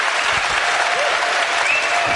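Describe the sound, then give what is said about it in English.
An audience at a book festival talk applauds in a dense, even clatter of many clapping hands that holds at a steady loud level throughout. “I want to give a huge round of applause and thank you to Anand and Bob.”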